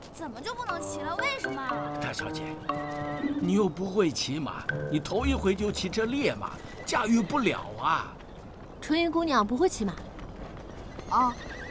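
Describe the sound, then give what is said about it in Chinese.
Hooves clip-clop as a spirited, untamed horse whinnies several times, its high neighs rising and falling over people talking nearby. “大小姐，这匹马你可不能骑啊！”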